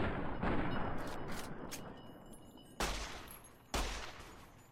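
Gunshots from a .45-calibre weapon fired in a video game, with several sharp cracks and rumbling, slowly decaying tails; two distinct loud shots stand out near the end.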